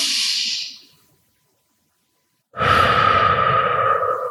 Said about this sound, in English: So we take a big breath in through the nose. Exhale out through the mouth.